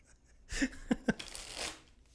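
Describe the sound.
Tarot cards are shuffled and drawn, a papery rush of sliding cards broken by a few sharp taps, rising suddenly from near silence and then fading away.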